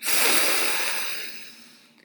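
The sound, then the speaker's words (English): A person takes a big, long sniff from an opened Ziploc bag: one drawn-out, airy inhale that starts strong and slowly fades over about two seconds. “Detective Mons opens the bag and takes a big, long sniff.”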